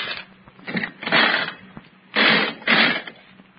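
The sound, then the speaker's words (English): Coin-operated nickel slot machine being played: a few bursts of whirring, rattling mechanical clatter, the longer ones about half a second each, separated by quieter ticking gaps. “Oh, I don't think it's possible to win on these slot machines.”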